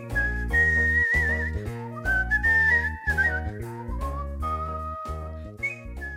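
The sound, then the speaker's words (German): Artistic whistling by a professional whistler: a clear, high, sustained melody with gliding pitch changes and quick ornamental trills, held notes shifting smoothly from phrase to phrase. “Kunstpfeifen ist eine eigene Disziplin, Gepfiffen wird nicht zum Zeitvertreib, nicht als Kommunikation, nicht als Imitation, sondern nahezu professionell vor Publikum.”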